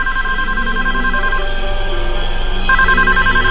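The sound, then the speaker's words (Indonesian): A telephone ringing in a room: a high, trilling electronic ring sounds in two bursts, the first lasting over a second, then a pause before the second ring starts. “Ada suara telepon berbunyi di kamar itu.”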